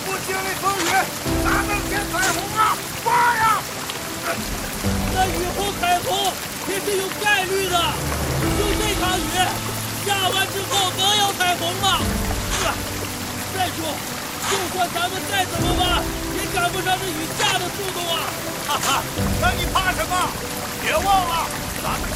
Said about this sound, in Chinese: 这雨也太大了吧！ 哎，下点雨怕什么？